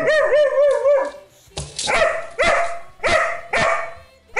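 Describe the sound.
A dog gives a wavering, whiny howl, then a string of sharp, loud barks at a fairly even pace, with no talking.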